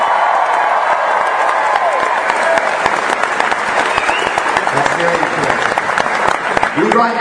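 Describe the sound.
Loud audience applause at a live improv comedy show: dense, continuous clapping from a large crowd with some cheering, holding steady throughout without a break.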